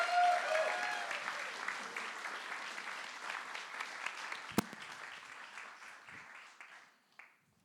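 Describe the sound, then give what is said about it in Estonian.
A church audience gives warm applause to welcome a guest speaker. The clapping starts full, then thins and fades gradually over several seconds, with one sharp knock partway through and a final few claps at the end. “Tervitame sooja aplausiga.”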